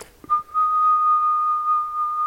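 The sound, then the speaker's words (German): Steady whistling holds a single pure tone to demonstrate a sine wave, sustained at an even pitch and nearly constant loudness after a brief click at the start. “Ich habe da eine schöne, gleichmäßige Sinuskurve aufgebaut. Wenn ich pfeife,”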